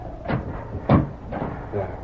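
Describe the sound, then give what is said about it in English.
A door being shut against the wind in a house: a few dull knocking and creaking bursts spaced over two seconds, moderately loud, with a thicker thump near the middle. “Wait till I close this door.”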